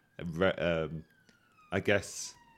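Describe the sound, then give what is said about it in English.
An ambulance siren passing outside: a faint, steady tone with a slowly falling pitch, running under people talking. “It's them. It's an ambulance. It's fine.”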